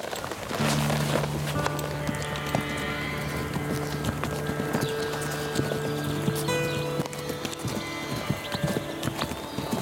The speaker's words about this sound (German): Sie müssen die Knie am Pferd lassen, damit sie spürt, wenn sie den Druck verändern.